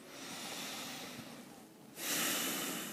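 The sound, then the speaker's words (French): A deep breath through the nose during a guided relaxation exercise: a long, airy inhale followed by a louder, hissing nasal exhale, with no talk. “Pour ça, on commence par prendre trois respirations profondes.”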